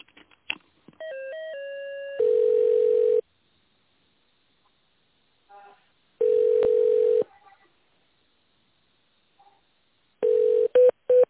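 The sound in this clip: Telephone line tones play while a call is transferred to an accounting department: a few short dialing beeps, then long, steady, mid-pitched tones repeating with pauses of silence between them, with no voices.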